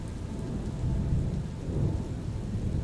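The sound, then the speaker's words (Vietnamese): A heavy downpour roars steadily, lasting close to an hour, with low thunder rumbling beneath it. The dense hiss of rain stays loud throughout, and deeper rolling swells come and go under the wash. “Sau gần một tiếng đồng hồ mưa như chút nước, cuối cùng mây đen cũng tản đi, bầu trời cũng dần quang đãng trở lại.”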